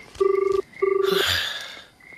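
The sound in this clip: A telephone rings during a call: two steady buzzing rings with a fast pulsing tremble, each about half a second long, then a brief burst of hiss.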